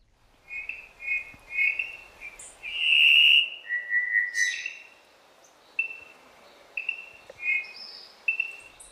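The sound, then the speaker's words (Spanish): Song of the Cuban solitaire (Myadestes elisabeth), a forest bird: a series of clear, high, flute-like whistled phrases, varied and repeated, with a louder sustained passage in the middle, heard alone. “pocos paisajes sonoros resultan tan admirados en Cuba como el que compone con maestría El solitario cubano, nombre científico Miadestes Elizabeth.”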